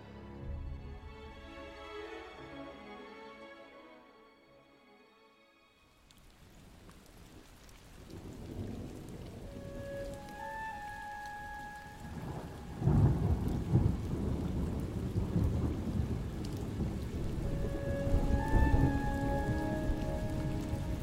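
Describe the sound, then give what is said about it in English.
A thunderstorm pours steady rain, a broad hiss that thickens partway through. Deep, rolling thunder rumbles swell loudly over it in the later half, and no one speaks. “and thunder shakes the ground.”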